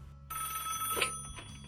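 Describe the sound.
Telephone ringing for an incoming call: a sustained, bright electronic ring begins shortly after the start and continues to the end, fairly faint and heard alone without voices.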